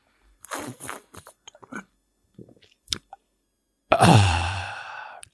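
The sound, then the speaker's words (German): Loud sip of a drink made deliberately noisy for ASMR: a few wet slurping mouth noises and small clicks, then a longer, loud, voiced breathy exhale after the swallow. “Also, jetzt meinen Schluck auch laut machen, jetzt ASMR hier.”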